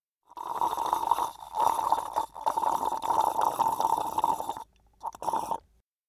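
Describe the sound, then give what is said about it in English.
Drinking sound effect: wet, gurgling gulps of liquid come in a few bursts of varying length, the longest in the middle, with short pauses between them and silence at the end. “He's drinking.”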